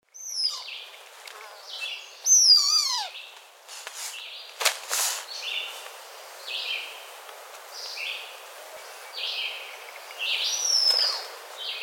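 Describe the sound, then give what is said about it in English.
Blue-winged teal calling: a series of high, short whistled notes, some sliding sharply downward, repeated many times at irregular intervals over a quiet background. “Blue-winged teal.”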